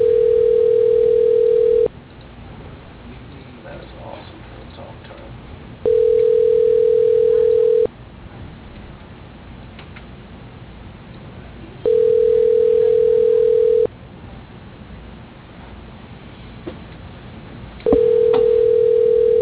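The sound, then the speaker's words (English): A telephone ringing tone sounds as an automated phone system places a call: four long, steady beeps of about two seconds each, evenly spaced, with a low hiss filling the gaps between them. “The system will now try to locate your party.”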